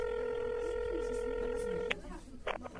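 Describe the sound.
A phone call is dialed and rings, a steady electronic tone holding for nearly two seconds before a click cuts it off and a voice starts speaking.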